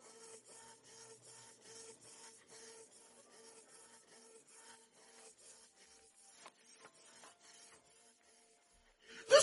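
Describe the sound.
A printer runs through a print job with quiet, rhythmic mechanical passes and soft rasping feed noises, then a sudden louder clunk at the very end.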